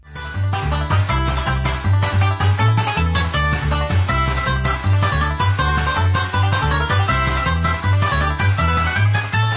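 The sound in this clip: Music from a kart racing video game's gold mine course plays loud and steady, driven by a repeating bass line and a constant beat, with bright melodic layers on top and no voices.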